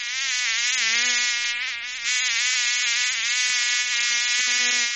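Mosquitoes and flies buzzing as one dense, high whine that runs steadily through the whole clip. The loudness stays nearly even, with one brief dip partway through.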